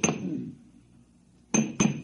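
Three sharp metallic bangs hit an air conditioner condenser with a sealed power pack. A first clank rings out and decays, then after a pause two more strikes land close together.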